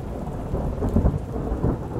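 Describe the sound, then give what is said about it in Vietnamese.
Thunder on a rainy, stormy night: a deep, continuous rumble that swells in the middle and again near the end, over steady rain. “Thanh âm lạnh lẽo đầy oan khuất cất lên giữa màn đêm mưa gió. Tiếng sấm chớp vang dội như uất ức tràn ngập cả căn phòng.”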